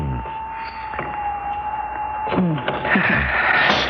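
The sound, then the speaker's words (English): An elevator arrives with a steady electric hum and a low machinery whir that swells toward the end, while a voice briefly murmurs beneath it. “Oh, the elevator's here.”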